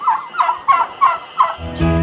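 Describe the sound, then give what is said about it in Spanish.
Turkey gobbling, five quick, evenly spaced, warbling notes in a steady rhythm, loud and alone, followed by a harsher, buzzy call at the end. “El invitado de honor de esta fecha es originario de México. Sus primeros registros datan de 2000 años antes de Cristo y lo conocen como guajolote.”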